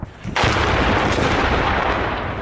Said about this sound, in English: A helicopter is now bombing with explosive barrels.